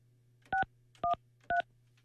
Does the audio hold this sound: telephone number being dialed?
yes